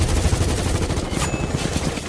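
Gunfire volley after an order to fire: dense, rapid, crackling shots run without pause through the whole clip, loud and continuous like automatic fire.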